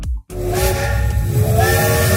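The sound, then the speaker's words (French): A steam train whistle sounds a steady, sustained harmonic tone over breathy hiss after a very brief silence at the start, staying loud throughout. “Alors, a priori, avec ce train-là, tu vas mettre 4 jours à arriver en Bretagne.”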